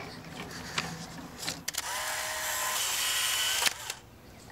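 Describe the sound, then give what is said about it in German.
A camera taking a photo: a sharp click, then a steady whirring hiss, then another click, with no talk. “Okay, darf ich ein Foto machen?”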